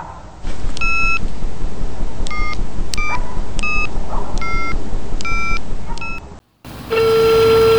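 Telephone keypad beeps as an emergency ambulance number is dialed in Pernambuco, Brazil: a series of short, evenly spaced electronic tones over steady background hiss, followed after a brief gap by a sustained steady tone.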